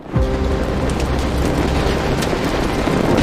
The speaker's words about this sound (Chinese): 一声巨响，炼铁炉发生了剧烈爆炸，火舌从炉口处喷出